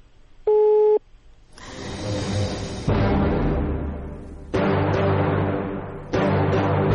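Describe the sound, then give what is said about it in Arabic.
Telephone busy signal after a call-in line cut off: a single short, steady tone early on, followed by long stretches of loud, harsh line noise. “الخط قطع.”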